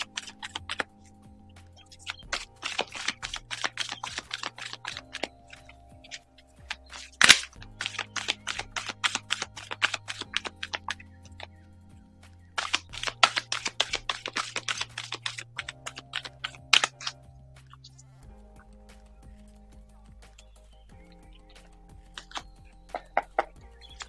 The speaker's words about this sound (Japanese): カードをシャッフルします。少々お待ちください。